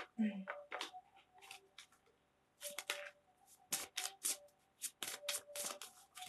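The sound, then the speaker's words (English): A card being pulled from a deck during a card reading: many crisp flicks, snaps and rustles of card handling, some short and quick, others separated by brief pauses. “All right, so let me just pull one more card for you.”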